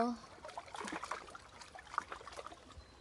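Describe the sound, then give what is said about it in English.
Water trickles and pushes against stones along a shoreline lined with plants and trees, a faint, steady babbling with small splashes. “feel those delicious sounds from the water pushing against the stone, the plants, the trees,”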